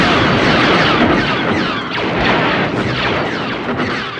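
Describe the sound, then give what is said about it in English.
Metallic zinging from a wrench striking a taut guy wire in the desert, picked up by a contact microphone on the wire: a loud, dense wash of overlapping swooping tones that served as the base of sci-fi blaster sounds. “He found this great wire out in the middle of the desert and took a contact microphone out and put it on the wire and started hitting it with a wrench. And what he got were the bass of the blaster sounds for Star Wars.”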